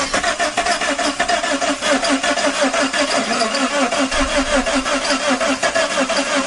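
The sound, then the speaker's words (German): Starter motor cranking a DeLorean car engine that is trying to start: a loud, fast, steady rhythmic chugging that runs throughout without catching. “Da versucht Marty, den DeLorean zu starten, um wieder zurück ins Jahr 1985 zu kommen.”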